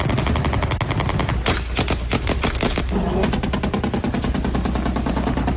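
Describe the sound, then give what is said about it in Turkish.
Automatic gunfire from helicopters attacking an intelligence headquarters in Ankara crackles in fast, loud bursts. The sharp shots run almost continuously, with no talk. “Helikopterlerden açılan ateşte MİT müsteşarlığı saldırıya uğradı. Ankara'nın birçok noktasında olduğu gibi MİT yerleşkesinde de silah sesleri yükseldi.”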